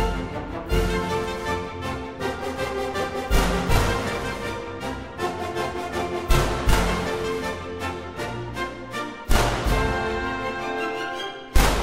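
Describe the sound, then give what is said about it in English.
Brisk orchestral gallop music by Strauss, the Bandits' Gallop, is punctuated by several sharp, loud bangs imitating bandits' gunshots, spaced at fairly regular intervals of a few seconds. “here's another gallop by Strauss, the Bandits' Gallop, in which you can hear the bandits firing their guns as they make their getaway.”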